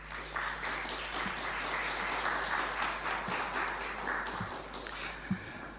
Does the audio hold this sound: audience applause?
yes